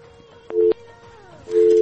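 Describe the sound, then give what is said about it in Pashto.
A telephone busy signal sounds during a call with connection trouble: a short, steady low tone pulse, then another that begins near the end and holds. Faint talk can be heard between the tones. “نن اړیکې والې داسې مصروفې دي، مشکلات دي پکې لکه چې.”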